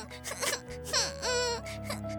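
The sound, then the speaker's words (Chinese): A children's story character crying. Faint whimpering sobs build into a drawn-out wavering wail, then ease into softer whimpers. “就在这个时候，小迪比也听见有人在哭。”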